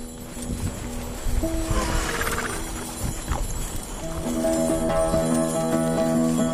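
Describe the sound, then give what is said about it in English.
A horse pulls an antique sleigh around a farm, its hooves clopping at a moderate level under a steady, ringing tone, with no talking. “We hitch up to one of the fancier antique sleighs that'll be selling at auction in a few days and take it out for one last spin around the farm.”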